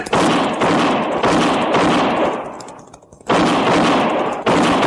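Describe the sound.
Gunshots in a western radio drama: a volley of loud, sharp shots with rumbling tails, spaced unevenly, with a lull just before the last two shots.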